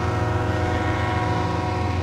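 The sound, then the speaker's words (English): Freight train passing along the rail line through a small town's downtown, a loud, continuous low rumble with a sustained tonal drone that holds steady for the whole moment, with no voices. “And freight trains that come through the rail line.”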